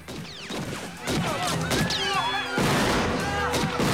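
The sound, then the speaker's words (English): Gunfire erupts in a film shootout as a gunman fires from cover at a group of men: loud, sharp shots and crashing impacts mixed with whistling, sweeping tones, continuing densely throughout. “Piper takes cover and begins firing at Santiago and his men.”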